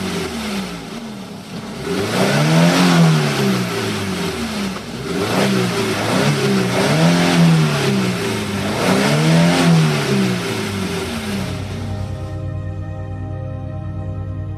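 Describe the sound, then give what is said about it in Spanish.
A car engine accelerating hard on a road as the driver floors it, its loud mid-pitched roar climbing in pitch through three successive surges like gear changes, then dropping to a lower, steadier drone near the end. “La mujer cuenta que pisó el acelerador y huyó de allí.”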